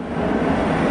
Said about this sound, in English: And that is the sound of a Boeing 777X performing an exhibition flight.